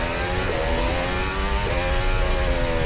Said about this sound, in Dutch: Hij rijdt al langzaam. Je hoort hem doorachteren, maar short shift, dus weinig snelheid.